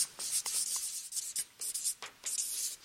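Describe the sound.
Writing something down produces dry, scratchy strokes, many short rubbing bursts in an irregular rhythm, fairly faint with no talking.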